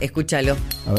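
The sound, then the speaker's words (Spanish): Brief glassy clinks from opening a glass jar of natural Dahi yogurt, heard under people talking in Spanish, with a couple of quick, bright taps within a second. “Tal cual, llegaron los yogures Dahi, rico, natural. Es el sonido de abrir un Dahi y regalarse un buen momento.”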